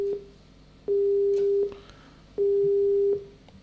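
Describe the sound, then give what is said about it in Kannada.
A telephone busy tone after a dropped call during a radio phone-in: a steady mid-pitched beep repeats in long evenly spaced pulses with silent gaps, beginning with a clipped blip. “ದೂರವಾಣಿ ಸಂಪರ್ಕದಲ್ಲಿ ಕಡಿತ ಉಂಟಾಗಿದೆ.”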